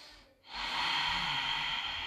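A long breath out during a yoga session: a brief hush, then a steady, soft breathy hiss that holds for well over a second without voices.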